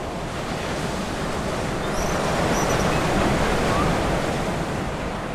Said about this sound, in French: À 400 km au nord des côtes de Rio de Janeiro, Atafona est un village balnéaire victime de la montée du niveau de la mer depuis près de 50 ans. Ces dernières années, l'océan grignote entre 5 et 7 mètres de plage par an.